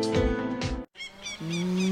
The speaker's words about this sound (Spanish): Margarita, la vaca influencer. O sea, la vaca más seguida del país.